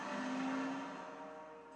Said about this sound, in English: Businessman drives away.